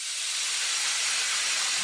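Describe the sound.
Steam hissing from a pressure cooker while dal cooks: a loud, continuous high-pitched hiss that holds steady without any pause.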